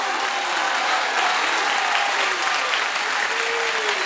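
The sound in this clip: Audience clapping fills a gathering where devotional verse is recited, with steady, dense, even applause throughout and a faint voice carrying beneath it.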